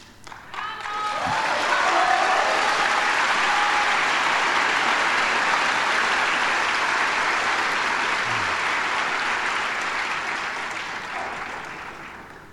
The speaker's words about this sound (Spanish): Estos son aplausos que lo lastiman a uno.